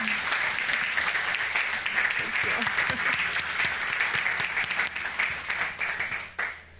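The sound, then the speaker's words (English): Audience applause welcoming a speaker to the stage, a dense, steady wash of many hands clapping that holds strong and then tapers off near the end. “So would you put your hands together and welcome to the stage Tiffany Daniel.”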